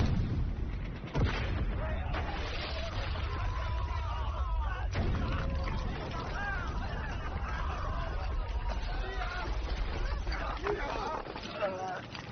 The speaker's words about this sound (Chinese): 瞄准李亚帆站的那个窗口，记住啊，我只有三发炮弹，一定要瞄准在他。瞄好了，开炮。